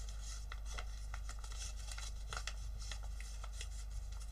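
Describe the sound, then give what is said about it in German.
Paper is creased and folded for origami, giving many soft, faint crinkles and light rustling touches over a low, steady hum. “Wir nehmen diese Falz hier, klappen es einmal um.”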